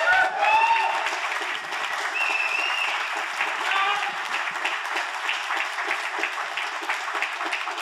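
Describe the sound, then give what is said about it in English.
A crowd applauds to welcome a guest at a debate event. The clapping is steady and sustained and holds an even, full level for the whole stretch. “Fellas, give it up for Scott Horton. Welcome him here, please.”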